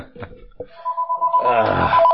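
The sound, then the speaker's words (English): A telephone rings for an incoming prank call: a steady, bright electronic ring with layered overtones that sustains and grows louder over about a second and a half, preceded by a few soft knocks. “I have to answer a prank phone call.”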